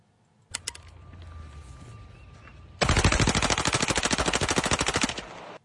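AR-15 semi-automatic rifle fitted with a bump stock, firing one long rapid burst of many loud, evenly spaced shots. A few sharp metallic clicks and a quieter stretch come before the burst.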